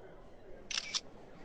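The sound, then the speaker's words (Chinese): Camera shutter clicks as tourists photograph a church: two quick, crisp clicks close together, faint and brief, under quiet talk. “看到巍峨的教堂建筑，一些大妈急不可耐的已经开始拍照了。”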